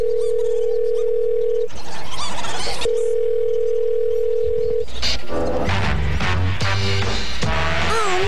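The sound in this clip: A telephone call ringing out: two long, steady ringing tones separated by a short burst of noise, then a stretch of busier, mixed sounds with no tone.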